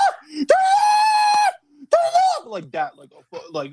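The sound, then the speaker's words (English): A person's voice imitates a scream: one loud, sustained, high-pitched yell of about a second, then a shorter second cry, followed by talking. “I was screaming at the top of my lungs and I was like,”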